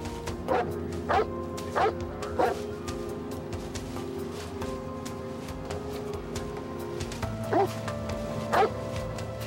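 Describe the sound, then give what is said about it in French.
Barking from a police sniffer dog tracking suspects into nearby woods: several short, sharp barks, a cluster early and a couple more later, over a steady background hum. “un chien renifleur se mit sur leur piste”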